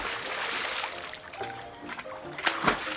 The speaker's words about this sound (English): Mr. Mouse, what in El Mundo are you doing? Please tell me you didn't just dip your tiny little PS or your little feet into your soup.